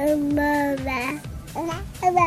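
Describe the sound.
Babbling of a baby: a few short voiced syllables with gliding, wavering pitch, heard alone and clearly.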